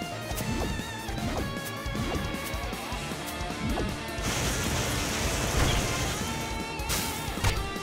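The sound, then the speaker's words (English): A shredder explodes in a video game with a long, loud barrage of smashing and crashing hits that stays dense and steady for several seconds. “Now the shredder is exploding.”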